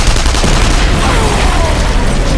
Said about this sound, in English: As he looked up, he saw Paul firing the shotgun. Rourke fired his submachine gun toward the last man.